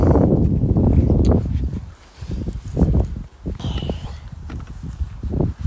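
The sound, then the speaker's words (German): Bicycle pushed along by hand, with irregular low thumps of steps and a few light rattles and clicks, fairly loud with no talk. “Ich schieb das Fahrrad hier mal kurz schon so hier hin.”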